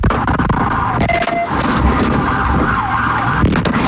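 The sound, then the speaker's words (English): A police siren wails during a vehicle pursuit in Fernandina Beach, its tone wavering continuously. It is loud but heavily buried in dense, rough road and engine noise throughout. “That sound from a vehicle pursuit in Fernandina Beach.”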